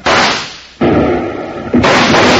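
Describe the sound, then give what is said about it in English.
Gunfire from a gang of gunmen shooting from a dance hall doorway: three loud, sharp blasts in quick succession, each with a long, rumbling decay. “Suddenly, Basher and his gun slicks appeared from the door of the Red Gopher Dance Hall and opened fire on Bill and Jingles.”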